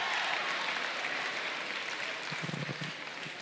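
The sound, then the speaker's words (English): A church audience claps and makes noise in a soft, steady patter of applause, with a brief low murmur of voices near the end. “How many of you are grateful that God has positioned you with some real friends? Make some noise in this place.”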